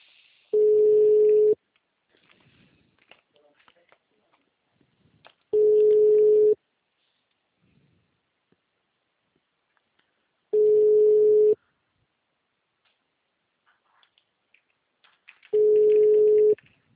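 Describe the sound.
A telephone ringback tone sounds on an outgoing call: four steady, low beeps, each lasting about a second, separated by long silent gaps of several seconds.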